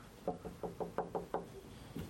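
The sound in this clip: Knocking on a door: a rapid series of sharp, hollow raps, then a short pause and one more knock. The knocks are moderately loud over a quiet background.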